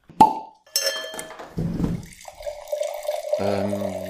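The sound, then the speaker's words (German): A bottle of wine is opened: a short, sharp pop comes first, then clinks and the gurgle of liquid pouring with a steady ringing tone that grows fuller toward the end, at a moderate level without talk. “Und eigentlich würde ich jetzt schon mal eine Flasche öffnen. Ist das okay für dich? Ja, logisch. Mal eine aufmachen.”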